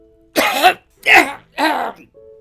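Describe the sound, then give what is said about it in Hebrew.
A soldier with a cold coughs three times in a told tale of Troy, harsh raspy hacks of similar length with brief pauses between them, each burst loud and throaty against silence. “המפקד לא היה היחידי שהשתעל.”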